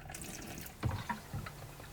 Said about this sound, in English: pour some RV antifreeze down the kitchen sink P-trap down the bathroom sink P trap,